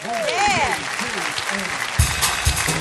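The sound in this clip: Applause from a theater audience welcoming a singer to the stage, a steady dense clatter of clapping with whoops and voices over it, swelling slightly toward the end.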